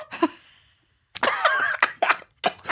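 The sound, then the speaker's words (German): Someone coughs after coffee shot up their nose. A short cough comes first, then a pause, then a long, strained, spluttering cough followed by two sharp coughs. “Ich höre doch, wenn jemand auf Schnaps hustet.”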